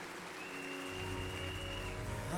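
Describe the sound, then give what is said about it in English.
A church audience claps for the praise team at a morning worship session. The dense, steady applause fills the whole stretch and grows slightly louder toward the end. “Please put your hands together for the Lord as we welcome the praise team.”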